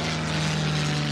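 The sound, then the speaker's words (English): Steady, droning roar of a Spitfire fighter aircraft's propeller engine, with a strong low hum running evenly throughout the brief clip. “I can listen to a Spitfire all day.”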